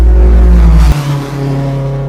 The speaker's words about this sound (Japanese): まあエンジンが冷えてるので回転が結構高めなんですけどね。